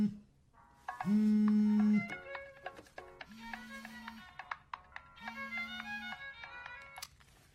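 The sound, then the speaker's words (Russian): A telephone rings with three long, even buzzing tones in a steady rhythm, joined by higher tonal notes; fairly quiet and with no voices. “Звонит телефон.”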